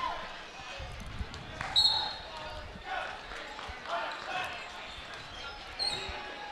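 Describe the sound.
A basketball dribbled on court, a few soft thumps under a commentator's talk, with faint game noise behind.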